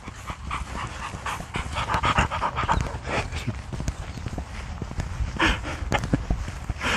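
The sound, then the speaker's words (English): A couple of big black dogs pant with their tongues hanging out, a steady run of quick breathy huffs in an even rhythm that continues throughout. “A couple of happy dogs. Big black dogs. Tongues hanging out.”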